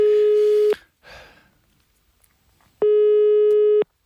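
A telephone busy signal sounds while phoning the boss: two long, steady electronic tones, each about a second, separated by a quiet gap of roughly two seconds.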